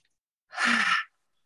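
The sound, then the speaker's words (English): A single deep clearing breath out through the mouth during a guided relaxation exercise done seated or lying down, a soft breathy whoosh lasting about half a second, alone. “take a big deep breath in through the nose, and we'll just breathe out through the mouth as a clearing breath”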